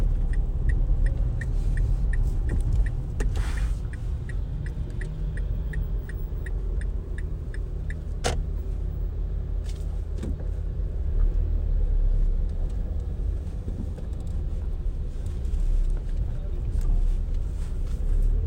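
Steady low engine and road rumble inside a moving car driving past a large construction site, with a run of regular light ticks early on and a couple of sharp clanks standing out over the drone.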